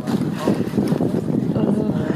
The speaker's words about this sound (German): Und stattdessen ist es halt leider ziemlich windig und auch sehr wellig.